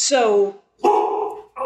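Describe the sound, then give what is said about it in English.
A pit bull dog barking in a few loud, drawn-out vocal bursts with strong harmonics, separated by short gaps, with the last burst cut off. “don't panic. It's just a dog. No, it's just, I'm dog sitting a pit bull.”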